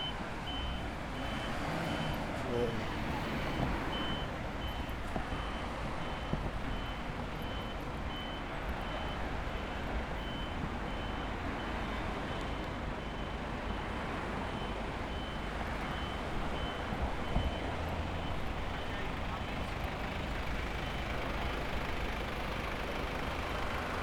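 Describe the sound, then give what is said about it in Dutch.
Street sounds during a blockade of the A12 motorway: steady, dense traffic rumble of trucks and cars, with a faint repeating reversing beep running through it and no voices. “we gaan nog even wat straatgeluiden bij doen.”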